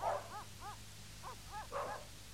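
Dogs barking in several short, quiet, arched barks spread over about two seconds, some in quick pairs, over a low steady hum.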